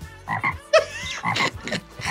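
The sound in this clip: A human voice imitates a frog, giving a series of throaty, rasping croaks in short bursts with brief pauses between them.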